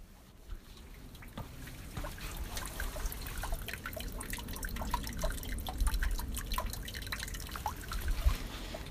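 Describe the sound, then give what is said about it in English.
Water drips through the grates of a cattle guard, many small irregular drips and trickling splashes tapping steadily over a low, constant rumble. “that was the sound of sweet, sweet water dripping through the grates of a cattle guard”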